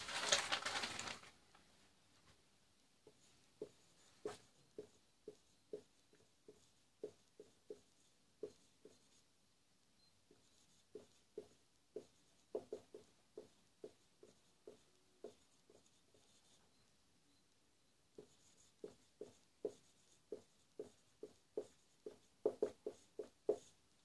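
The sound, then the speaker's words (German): Handwriting with a pen as meanings are noted beside a text: many short, faint scratching strokes in a fairly steady rhythm, broken by brief pauses, with no talk. “Also ich schreibe sie daneben, die Bedeutung.”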